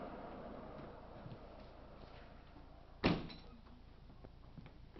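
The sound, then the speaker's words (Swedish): A window is shut with one abrupt clunk about midway, followed by a brief fading rattle. Steady low background hiss fills the rest, with no talking. “Jag tror jag stänger fönstret här.”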